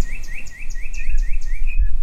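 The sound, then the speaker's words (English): Birds chirping in a neighborhood in spring: a rapid, evenly spaced series of bright, high chirps over a low background rumble. “but with birds too, like these in a Richardson neighborhood. Their chirping becomes nature's springtime symphony.”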